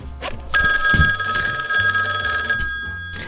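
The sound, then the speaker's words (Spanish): A telephone bell rings during a radio programme: one sustained, bright, metallic ring of about two seconds over low background sounds, fading away afterward. “Ahí están llamando.”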